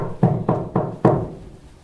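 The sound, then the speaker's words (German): Four firm knocks on the door of a small hut, evenly spaced, each a dull thud with a short fading tail, followed by a quiet tail-off. “Er geht her und klopft an.”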